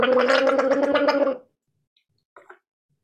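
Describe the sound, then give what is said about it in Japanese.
A person gargles water in one steady bubbling gurgle lasting about a second and a half. It stops abruptly, and two faint short sounds follow after a pause. “続いて読ませていただく前に、ちょっとうがいさせていただきます。”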